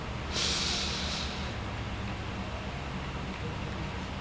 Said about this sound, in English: Let's take a few breaths before we continue on. Deep breath in.